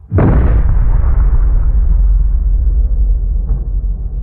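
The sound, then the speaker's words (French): A deep atomic bomb explosion, the Fat Man bomb over Nagasaki, hits with a sudden loud boom and swells into a heavy, sustained rumbling roar that continues to the end. “trois jours après Hiroshima, la bombe atomique Fat Man pulvérise Nagasaki.”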